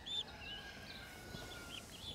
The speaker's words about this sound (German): Macht auch schon die Augen wieder auf und piept wieder rum.